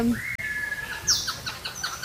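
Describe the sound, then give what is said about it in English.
Tropical birds chirp and whistle in a warm conservatory. A long, sustained whistle is followed by many short, high chirps over a steady background hiss. “We have tropical plants, tropical birds.”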